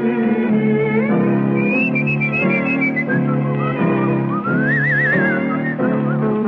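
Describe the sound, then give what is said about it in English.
A person whistles a lilting tune. The bright melody glides between notes and breaks into a brief wavering trill near the end, loud and steady throughout. “Whistle and dream your cares away.”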